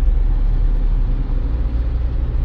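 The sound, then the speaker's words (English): A car drives through city traffic in Houston, a steady low engine and road rumble throughout, with no one talking. “as I navigate through the perils of Houston traffic.”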